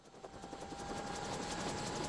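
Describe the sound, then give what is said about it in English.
A government helicopter takes off from a patch of dead grass along the Serbian border. Its rotor blades thud in a rapid, steady rhythm over a sustained engine whine, growing slightly louder as it rises. “A government helicopter rises from a patch of dead grass along the Serbian border.”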